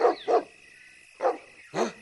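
Barking from a dog that has run off after a scent during a search: four sharp barks, the first two close together, then two more spaced out after a pause.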